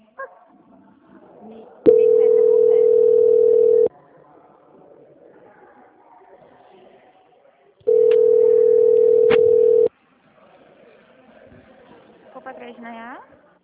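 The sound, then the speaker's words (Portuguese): A telephone line tone sounds after a call drops during a transfer: two loud, steady beeps of about two seconds each, separated by a few seconds. Faint, low voices and background noise fill the gaps. “é a Daniele, que a ligação caiu para transferir a auditoria. Caiu a ligação.”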